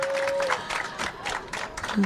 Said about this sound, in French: Et je voudrais qu'on applaudisse nos premiers invités qui sont avec nous ce soir, Bérangère Krief et Koulchen